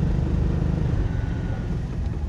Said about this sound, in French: La voiture commence à faire du boucan aussi. Tac, tac, tac, tac.